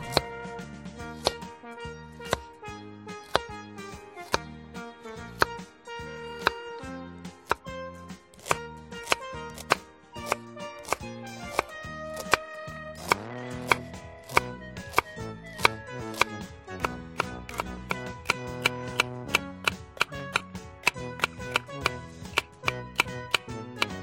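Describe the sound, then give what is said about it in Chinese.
Knife chopping vegetables such as carrot, water bamboo shoot, cucumber, celery and onion by hand on a cutting board, cut rather than grated: many crisp, rapid knocks in a steady working rhythm that continues throughout with only brief pauses. “不要用刨的哦。 尽量用切的，切出来会比较脆。 嗯， 哎，比较脆。好，我现在已经都把它慢慢的要一样一样切，这个是比较费工的地方。”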